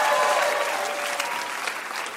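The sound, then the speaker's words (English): An audience applauds game show contestants with steady, dense clapping that stays loud and even throughout, then eases off slightly at the end. “Big round of applause for our contestants.”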